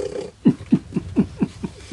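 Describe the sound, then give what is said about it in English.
Little snorting noises come as a quick series of about six short, low, rough puffs, fairly evenly spaced and moderately loud, with no talk. “Forgive the little snorting noise right now, because one of my friends, she decided she was just gonna come in on the podcast”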